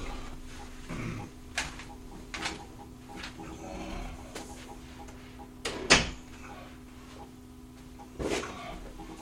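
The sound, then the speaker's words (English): A door being closed: a few faint knocks and bumps, with one sharper thud standing out, all soft and low in level. “hang on, I'm going to close the door here real quick.”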